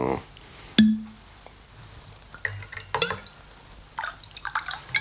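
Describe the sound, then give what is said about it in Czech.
A small splash of whisky poured into a glass: a sharp clink of glass, then light splashing and a few faint drips. “Já vám naliju whisky, ano? Ale jenom trošinku, prosím.”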